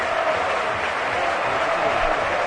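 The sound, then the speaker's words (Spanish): Stadium crowd ovation at the Calderón for Torres of Atlético Madrid as he is substituted: a dense, steady roar of many voices and clapping that holds at an even, loud level throughout. “ojo a la ovación que le va a dedicar el Calderón a Torres.”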